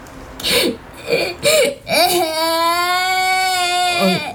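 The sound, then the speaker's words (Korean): A child cries, starting with a few short, choked sobs and then breaking into one long, high, sustained wail that trails off at the end. “한 아이가 끝내 울기 시작했다.”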